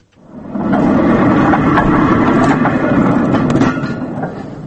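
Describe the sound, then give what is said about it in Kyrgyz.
Train rolling along the Trans-Siberian Railway, a loud, steady low rumble that swells in quickly, carries faint rhythmic rail clatter, and tails off slightly at the end. “Кадимки эле поезддин үнү. Биз азыр Орусиядагы Транссибир магистралында баратабыз.”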